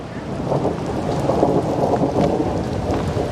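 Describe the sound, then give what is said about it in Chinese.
Rain falls steadily as a dense, even hiss that holds without a break and stays fairly loud throughout, with no voices. “下雨了。”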